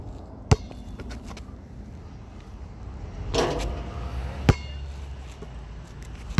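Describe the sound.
A basketball bounces on a court during form shooting: a few isolated, sharp thuds stand out over a low steady background, with a brief louder rustle midway.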